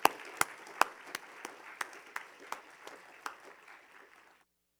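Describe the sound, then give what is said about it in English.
A church audience claps to welcome a preacher to the pulpit. Sharp claps fall in a steady, even rhythm over a soft wash of applause, then fade out to silence. “Let us put our hands together for a warm welcome as he comes and takes the pulpit.”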